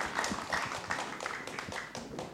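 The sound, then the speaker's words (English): Audience applause at a festival showcasing young Indonesian writers: a steady, dense patter of clapping that holds at an even level for about two seconds. “Big applause.”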